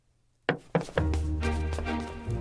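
Knocking on a door: two sharp, heavy knocks in quick succession, then a loud, dense, sustained sound that runs to the end.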